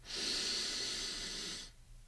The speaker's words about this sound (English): At this point, I'll ask you to close your eyes. Another inhalation for 3 seconds.